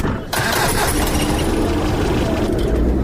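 A car engine starts as the driver sets off, catching with a sudden step up in sound and then settling into a steady, broad rumble that continues to the end.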